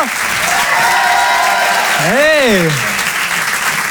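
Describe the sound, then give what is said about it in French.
Loud, sustained audience applause greeting a comedian's entrance at a comedy show, with one voice briefly calling out over the clapping partway through. “Il est avec nous ce soir. Je vous demande de l'applaudir lui aussi très fort.”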